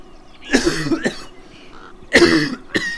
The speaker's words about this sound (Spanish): El viejo tosió, escupió colérico al suelo